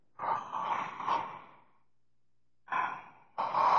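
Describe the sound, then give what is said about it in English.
Deep breaths taken during a guided breathing exercise: one long, airy breath, then two shorter ones after a pause. Each is soft, breathy and rushing, with no talk. “go ahead and take a deep, deep breath.”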